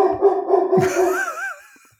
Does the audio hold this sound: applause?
no